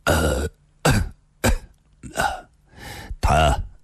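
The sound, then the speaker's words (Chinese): Coughing held back with effort: six harsh, voiced coughs in quick succession, loud and heard alone. “李寻欢勉强忍住了咳嗽”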